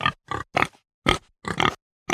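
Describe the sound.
Pig grunting: a quick run of several short, rough, throaty grunts with brief pauses between them, heard alone with no talk.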